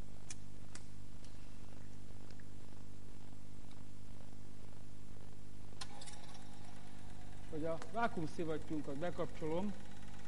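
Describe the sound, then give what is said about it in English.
An electric vacuum pump evacuating air from a bell jar gives a steady, low purring hum with faint ticking, and a person talks over it near the end. “pump the air out of the of this bell. Let us connect it to the vacuum pump.”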